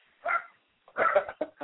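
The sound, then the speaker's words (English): Small dogs like teacup chihuahuas bark during a dog walk in Puerto Rico. There is one short yap, then a quick cluster of sharp, high barks, with no talking. “barking. What kind of dog is that? It sounds like one of those little teacup chihuahuas that's barking.”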